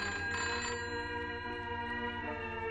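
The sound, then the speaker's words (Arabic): A telephone left ringing on and on, a quiet, steady bell-like trill that continues without pause and with no talk. “التليفون. سيبيه يضرب، سيبيه يضرب على طول.”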